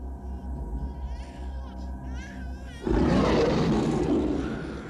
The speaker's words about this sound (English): A huge black wolf's head roars above him.